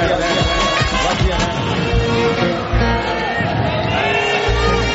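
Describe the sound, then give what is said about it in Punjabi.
An audience claps and cheers at a live Punjabi stage show, a dense, loud wash of applause mixed with shouts and voices that runs without a break. “ਤਾੜੀ ਮਾਰੋ ਕੁੜੀਆਂ ਦੇ ਨਾਂ ਤੇ ਜ਼ੋਰ ਦੀ”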